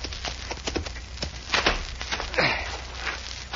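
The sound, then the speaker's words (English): Horse hooves clop as a rider comes up to a big ranch house, a loose, irregular run of many hoofbeats with a few louder strikes. “As our story opens, a guileless-looking, fresh-faced boy of 20 is just riding up to a big ranch house.”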